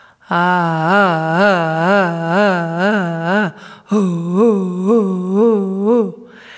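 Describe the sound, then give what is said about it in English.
An adult voice imitates a baby's rhythmic, pulsing, syllable-like sounds: a sustained mid-pitched voiced tone wavering in regular pulses, in two phrases with a brief break between them. “the child's ability to take the sound that he's making and to pulse on it. And I'm calling this action skill 2D pulsing. This is the act of creating the first syllable-like markings. And it might sound like this.”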